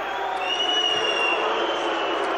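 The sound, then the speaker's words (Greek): PAOK and Dynamo Kyiv supporters boo in a football stadium. A continuous crowd roar of jeers carries thin, sustained whistling tones above it, holding an even level. “Αποδοκιμασίες ένθεν και ένθεν από τους φιλάλους και του ΠΑΟΚ και της Δυναμό.”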